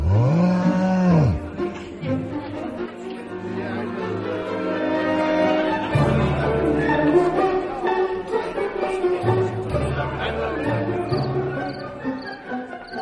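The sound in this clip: A cow that has waited at a market all day without a buyer lets out a long, low moo at the start, followed by further low tonal sounds with a voice speaking.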